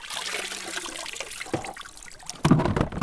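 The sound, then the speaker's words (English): Running water splashes and trickles as freshly harvested salad greens are washed, a steady wet rush that surges louder near the end. “We cut greens, wash them,”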